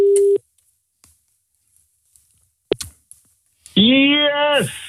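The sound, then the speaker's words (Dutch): A short telephone tone opens a call placed to a poll winner, followed by a few faint clicks and then a loud, excited voice answering. “En wij gaan bellen met de winnaar van deze poll.”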